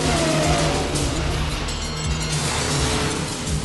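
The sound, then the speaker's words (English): A car engine roars as the accelerator is floored, a loud, sustained mid-pitched drone that holds steady for the whole stretch. “floors the accelerator”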